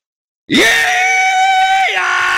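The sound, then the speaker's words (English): A man lets out a rebel yell: a loud, sustained, high whooping cry that bursts out of silence and holds steady before its pitch drops near the end. “Don't let me startle you. I'm just doing the rebel yell here to kind of kick things off”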